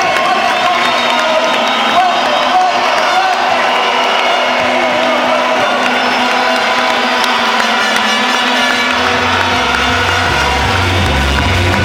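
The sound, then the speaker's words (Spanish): An audience applauds and cheers for Peru after a win. A dense, continuous roar of clapping and shouting holds at full volume throughout. “Hoy aquí, aplauda a Perú”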